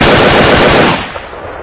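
Loud machine gun and submachine gun fire in a combat ambush, a dense, crackling rattle of rapid shots that runs continuously before dropping to a quieter, decaying tail.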